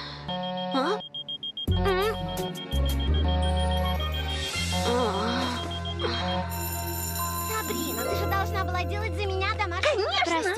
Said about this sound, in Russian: звонок уже прозвенел